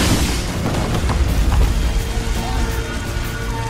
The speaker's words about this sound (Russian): В доме происходит взрыв, белый короб вылетает на улицу.